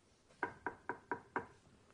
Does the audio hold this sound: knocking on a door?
yes